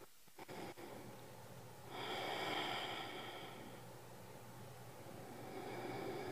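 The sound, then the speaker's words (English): Slow, deep breathing during a guided church service meditation. A long, airy breath swells up out of near-quiet, eases into a softer sustained exhale, then builds again toward the end. No one speaks. “Breathe deeply.”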